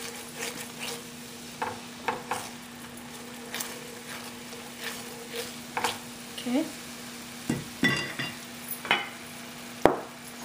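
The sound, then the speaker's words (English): Soy sauce sizzles in a stir-fry pan, a faint steady hiss broken by many light scrapes and clinks from stirring. “Add some soy sauce in here. And see how it just helped it also thicken it up.”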